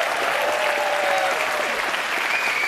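A packed house applauds and cheers at the German Kleinkunstpreis award ceremony in Mainz, producing a thick, unbroken roar of clapping with faint cheering tones mixed in, holding steady throughout.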